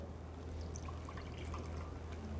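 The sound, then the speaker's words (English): Water is carefully poured off settled starch in a bowl, giving a faint, continuous trickle with small splashy drips throughout. “So what we're gonna do is remove the water and then put the starch in our batter. So we're gonna carefully pour the water out.”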